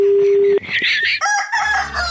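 A rooster crows loudly in a long, drawn-out cock-a-doodle-doo, right after a steady electronic tone cuts off.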